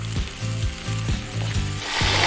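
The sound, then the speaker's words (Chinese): A pan-fried fish head sizzles as broth is poured into the pot, a dense crackling hiss that runs steadily throughout and swells louder near the end. “将鱼头煎得焦香，它将带来鲜香的底味。 这一锅精华现在要下下去了啊！”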